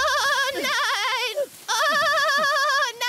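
A lamb bleats twice in a cartoon scene, each cry long and wavering with a strong quiver, the second following a short pause.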